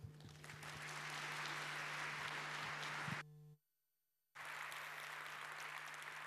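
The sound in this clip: Audience applause fills the hall as a speaker is welcomed at the 34C3 conference: steady dense clapping that cuts off abruptly into a brief silence, then resumes at full strength.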